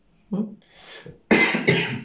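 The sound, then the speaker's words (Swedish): Someone clears their throat and then coughs, a short rasp followed by two sharp, loud coughs in quick succession. “Ursäkta nu. Jag fick en kråka i halsen.”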